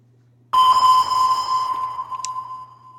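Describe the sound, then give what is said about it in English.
A sonar-like satellite search sound effect: a single loud electronic ping that sets off a clear ringing tone, which holds and slowly fades. “we have to get a satellite going to try to find where you are in the world. So hold on a second.”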